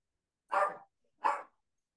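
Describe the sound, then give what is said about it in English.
Two short, sharp dog barks, fairly faint, separated by a brief silence and with quiet before and after. “because the dog is barking”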